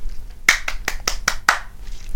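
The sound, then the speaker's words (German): Six sharp, evenly spaced hand claps from a lone clapper, crisp and loud, followed by quiet. “Applaus.”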